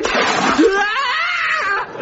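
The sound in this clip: Water thrown at a chimney lands in a broad, noisy splash, with excited voices crying out over the sloshing.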